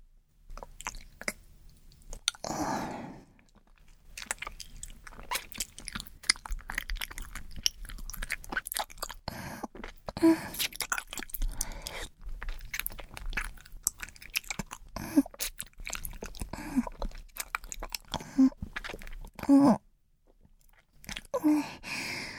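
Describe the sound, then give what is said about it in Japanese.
Chewing on something sticky mixed with saliva: many wet, squishy bites and smacks repeat irregularly at a soft level, with a few short pauses between runs. “ネトネトひっついてくるから、よだれと混ぜて噛んでみるね。”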